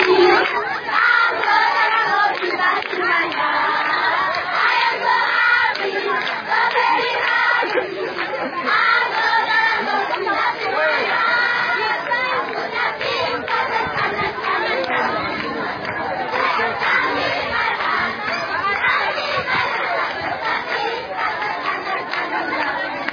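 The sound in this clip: Excited children at Emmanuel Christian School in Uganda welcome arriving visitors with a dense, continuous mass of overlapping shouts and chatter that stays loud and steady throughout.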